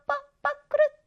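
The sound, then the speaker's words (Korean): Three short, nasal, honk-like bird calls sound alone in silence, evenly spaced and moderately faint, the last slightly longer than the first two. “새가 지저귀는 소리예요.”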